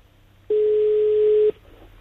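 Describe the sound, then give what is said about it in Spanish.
A single steady ring tone from an outgoing telephone call lasts about one second and is mid-pitched, over faint hiss and silence. “Venga, estamos llamando a Pedro.”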